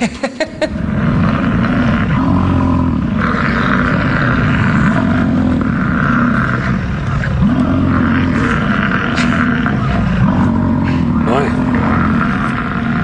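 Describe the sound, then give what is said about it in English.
Male bison call during mating season. Deep, rough, continuous roaring bellows rumble low and loud for about thirteen seconds. “Time for some more weird animal noises. Here's what male bison sound like during mating season.”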